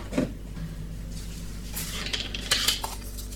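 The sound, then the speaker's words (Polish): A mug set down on a small shelf under a machine's spout: a few light ceramic clinks and knocks over a low, steady hum. “Wezmę teraz kubek i stawiam go na taką półeczkę pod tym kranikiem.”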